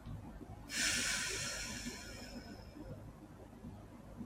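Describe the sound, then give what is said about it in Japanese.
A deep breath is let out during a guided morning meditation: a sudden, breathy rush of air that fades gradually over about two seconds against a faint steady background. “目をつぶったまま大きく息を吸って吸い切ったところで少し止めて大きく吐いて”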